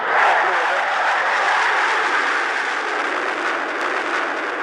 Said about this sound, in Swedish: Det där, det var ljudet av ett JAS-plan som för första gången någonsin lämnar marken 1988.